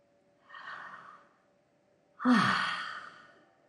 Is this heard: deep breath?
yes